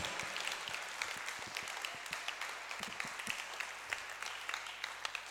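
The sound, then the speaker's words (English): Steady audience applause: many hands clapping in a dense, even patter at moderate level throughout, with no voices over it. “Oh, you're not clapping for Prof.”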